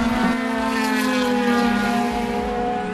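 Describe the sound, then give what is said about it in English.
A Ferrari race car's engine drones at the Le Mans circuit near the Dunlop curve: a loud, steady, buzzing tone rich in harmonics, held at an even pitch throughout with no clear pass-by. “It's one of the closest points you can get on the circuit as a Ferrari comes by.”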